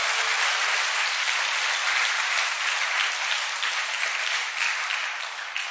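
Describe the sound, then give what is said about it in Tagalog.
Loud audience clapping at a church service, a dense, continuous wash of applause that holds steady for several seconds and eases slightly toward the end. “May malakas sa palakpak na nagsasabi, God is a giver.”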